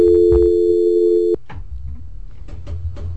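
A steady, loud telephone tone from an incoming call holds one pitch for about a second and a half, then cuts off abruptly, leaving quieter scattered sounds afterward.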